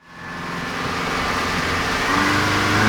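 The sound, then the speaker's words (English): Engine of a motorboat heading north across a bay, a steady mid-pitched droning hum that fades in quickly and then holds, growing slightly louder toward the end. “The condo towers of downtown Sarasota recede into the distance as our motorboat tracks northward atop a shimmering Sarasota Bay.”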